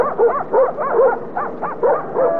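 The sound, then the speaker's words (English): Dogs bark and yip in a quick run of about six high, tonal bursts with whimpering edges, calling out on a city street in New York. The bursts are fairly loud and come in an uneven rhythm with no talk over them. “You call out them dogs. Okay. Come on, fellas. Come on, those doggies. Come on, doggy.”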